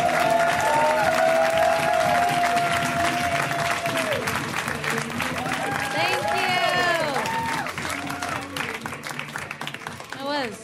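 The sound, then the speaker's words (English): Dense applause and cheering from a comedy club audience welcoming a comedian to the stage, steady and full at first, then thinning and fading over the final seconds, with voices heard over the clapping. “So guys, please, round of applause for Ms. Beth Stelling. Give it up for Beth.”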